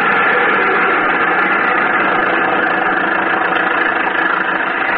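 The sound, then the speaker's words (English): An old car's engine, started by hand crank, runs in a continuous steady idle, a loud, even mid-pitched rumble with a slightly knocking texture and no break or change. “I've heard of people breaking their arms cranking cars. Well, say, if you're afraid, move over and I'll take a whirl at it. There goes.”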